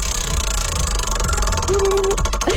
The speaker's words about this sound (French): on te fait tourner la roue, il y a plein de privilèges autour de ça. T'es prête? Yes! OK, ça part!